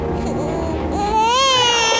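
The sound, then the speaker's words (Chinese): A hungry baby cries loudly and continuously, its wail rising and then dipping in pitch over a low background rumble. “小妮儿，别哭了啊！爷爷知道你饿。”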